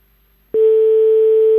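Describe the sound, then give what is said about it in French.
A telephone ringing tone sounds on a call: after a brief silence, a single steady electronic tone comes in sharply and holds unchanged at an even level to the end. “ça sonne”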